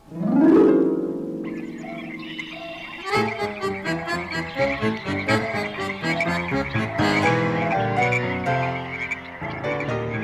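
Frogs croak in a loud, dense chorus of rapid rasping pulses that keeps going steadily. A long, drawn-out harmonic call opens the sequence before the rhythmic croaking takes over.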